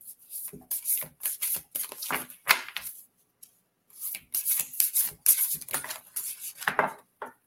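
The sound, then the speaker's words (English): Playing cards being gathered and handled during a card reading: a busy run of crisp rustling, slapping and clicking bursts, briefly pausing near the middle before resuming. “Let me get these cards before they fall off into the floor.”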